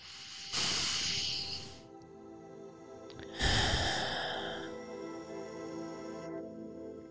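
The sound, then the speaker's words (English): Two long, airy breaths, a deep inhale and exhale at the start of a guided meditation, each a soft rushing hiss that swells and fades, separated by a quiet pause. “Let's begin. Let's start with a deep breath.”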